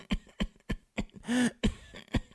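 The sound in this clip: A voice imitating a drawn-out feminine cough: a run of short, light cough bursts with a longer voiced, wavering sound in the middle, going on for a while.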